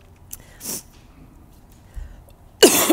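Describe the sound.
A person clears their throat and coughs at a microphone. A short rough burst comes first, then a louder, harsher throat-clearing cough near the end, with quiet between them.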